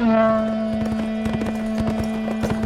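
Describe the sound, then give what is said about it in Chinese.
Galloping horse hooves thunder across a battlefield in a rapid run of many thudding beats that begins partway through and keeps going over a steady, sustained low tone. “图拉扬听到了战场上传来的喊着口号的人类声音，以及隆隆的马蹄声响”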